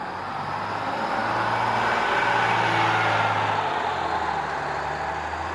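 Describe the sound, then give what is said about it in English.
An engine rumbles as a vehicle departs a camp in an audio drama sound effect. The dense, steady roar swells slightly through the middle and eases a little toward the end, with no voices over it. “Inference detected a vehicle departing the camp. It's consistent with the one Hinaka and his guard arrived in.”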